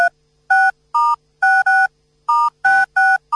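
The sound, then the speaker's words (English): Telephone keypad tones as a number is dialed for a prank call: a quick series of short, clean two-note beeps separated by brief silences, bright and steady, with no talking over them. “dial the number.”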